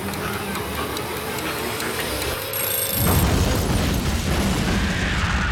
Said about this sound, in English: A massive explosion releases a huge fireball into the night sky.